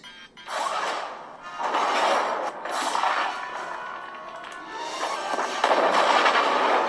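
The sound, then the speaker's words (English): Explosive blasts blow a hole in a wall: a run of loud, booming bursts with crashing, rumbling debris between them. The noise stays heavy and continuous throughout. “Please blast a hole in the wall right here.”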